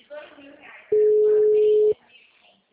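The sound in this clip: A ringback tone from a phone call waiting to be answered: one steady, mid-pitched beep lasting about a second, with people talking before and after it.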